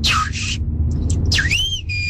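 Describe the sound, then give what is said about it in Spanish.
A person whistles a family call, the signal a father used to summon his children home from playing in the street: a few piercing whistled notes with sweeping downward and rising glides, loud over a low hum. “En mi caso, cuando mi papá nos salía a llamar, que estábamos jugando en la calle, él silbaba.”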